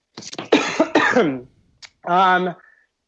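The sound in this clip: Short coughs and throat clearing from a tickle in the throat: a few rough, breathy bursts, then a brief voiced throat sound, all fairly close and clear with no other talk.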